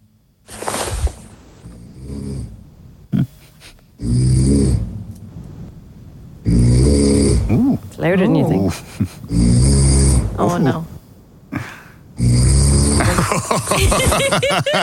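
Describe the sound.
A man snores in his sleep at night, producing several loud, rasping, rumbling breaths spaced a few seconds apart, with people talking between and over them.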